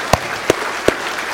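Hand claps at a church service welcoming two guests: three sharp, evenly spaced claps over a steady low background, with no voices.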